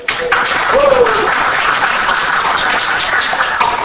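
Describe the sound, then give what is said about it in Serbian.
Audience applause: a dense, steady wash of clapping that holds at an even level for the whole stretch, with a brief vocal sound near the start. “Vi ste dobro zavređi aplauz.”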